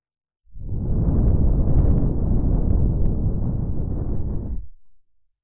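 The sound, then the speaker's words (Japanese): A single long breath is blown into the listener's right ear to close an ASMR ear-cleaning session. It is a loud, steady, airy rush lasting about four seconds before it fades out quickly. “最後に吐息を吹きかけまして、”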